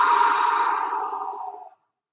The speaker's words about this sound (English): Take a deep breath in between the next one. Letting out the breath.